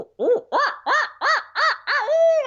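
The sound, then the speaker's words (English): A turkey hunter voices a higher-pitched imitation of an owl hoot: seven loud, rhythmic rising-and-falling notes in quick succession, with the last one drawn out into a longer, steadier tone. “So instead of just going, my normal owl, after about 10 of those, I finally kind of threw in a”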